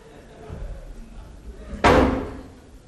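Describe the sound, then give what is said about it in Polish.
A door is slammed shut during a heated family row. One loud, sharp bang cuts through low muffled background sound and then rings out and fades over about a second. “Słyszałeś? Trzasnął drzwiami!”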